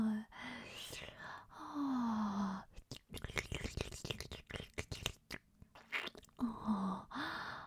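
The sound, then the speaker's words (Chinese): Chewing while eating food: soft, wet crunches and bites, with a whispered voice before and after a denser stretch of mouth sounds. “不过就算你说不行，我也照吃不误就是了。果然好美味啊。”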